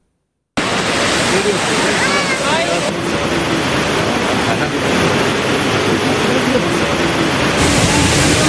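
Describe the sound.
Heavy downpour of rain during severe flooding in Turkey's Tokat and Amasya region: a dense, steady roar of pouring water and splashing that stays loud and unbroken throughout.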